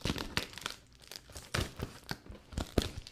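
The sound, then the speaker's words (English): Ripping and crinkling as a heavily taped cardboard shipping box, a priority mail box, is pulled open, with many quick rasping tears and crumples, fairly faint. “Why is everybody using an entire roll of tape on their boxes?”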